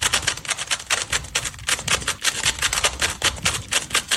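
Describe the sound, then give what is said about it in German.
Rapid plastic clicking and clacking of a scrambled Rubik's cube turned through a complete solve in about 4.27 seconds, a dense, unbroken stream of sharp snaps at steady loudness from start to finish. “Zauberwürfel in nur 4,27 Sekunden gelöst.”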